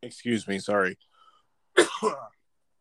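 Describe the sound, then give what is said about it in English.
A person coughing and clearing something stuck in the throat: a few harsh, voiced throat-clearing bursts, a short silence, then one sharper, breathier cough. “of course I ended up having something stuck in my throat right as soon as I'm trying to talk.”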